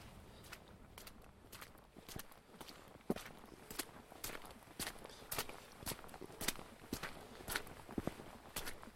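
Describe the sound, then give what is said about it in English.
Footsteps squelch along an extremely muddy path on the eastern edge of the Wrekin, many steady, evenly spaced steps, faint throughout. “So we're now walking, or actually flanking the eastern edge of the Reekin. Extremely muddy”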